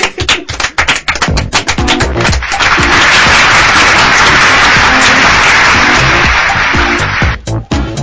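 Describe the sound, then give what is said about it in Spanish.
Audience applause builds from a few scattered claps into a dense, steady wash of clapping that holds for several seconds before thinning out near the end. “¡Y un aplauso!”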